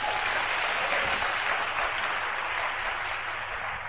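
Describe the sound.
A church audience applauds and acclaims the Lord during a service: a dense, steady wash of clapping that holds at an even loudness for the whole stretch.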